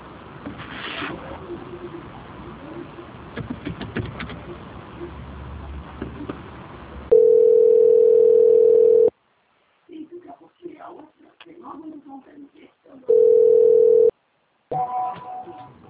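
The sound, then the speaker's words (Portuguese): Telephone line tone while a call is being transferred to a bank's quality department: two long, steady, mid-pitched beeps separated by a gap, with muffled phone-line talk before the first beep and between them. “peço que o senhor aguarde linha, que eu vou estar transferindo agora para o setor de qualidade do banco, onde vai dar continuidade à sua contratação. Só um minuto.”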